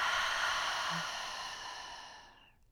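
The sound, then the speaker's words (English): A deep exhale through an open mouth makes a soft, breathy whoosh that lasts about two seconds and tapers off into silence. “Let's take a deep breath in together. Inhale, fill up your lungs. Open mouth, exhale, let it go.”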